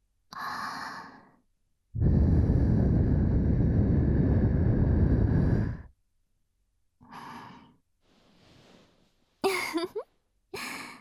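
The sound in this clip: A person blows a long, loud puff of breath lasting about four seconds. Shorter, quieter breathy sounds and a few brief rustles come before and after it.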